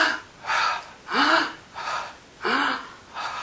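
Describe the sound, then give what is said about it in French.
Deep breaths in and out during a French-guided breathing exercise with the hands raised on the inhale and lowered on the exhale. About five soft, airy breaths alternate evenly with short pauses, and no talk is heard. “Oui, en inspirant. Et on baisse en expirant.”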